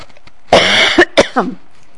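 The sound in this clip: Coughing: a harsh, loud cough burst followed by a couple of shorter coughs, then quiet.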